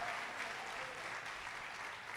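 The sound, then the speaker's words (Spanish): Church audience applause during a service: steady, dense clapping from many hands that stays even for the whole clip with no voices standing out. “Y los que creen, dan un aplauso al Señor, dicen amén.”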